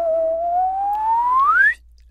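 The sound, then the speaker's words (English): A slide whistle plays one continuous glide that climbs steadily from a mid pitch to a high pitch, rising faster near the end, then stops abruptly. “Slide whistle.”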